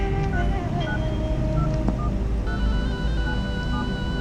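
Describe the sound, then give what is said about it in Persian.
Someone dials a phone number on a telephone keypad, and a quick series of short electronic key tones at different pitches sounds over a steady rushing background noise. “اینم که خاموشه. الان چی کار کنم؟ بهتر شماره میلادو بگیرم.”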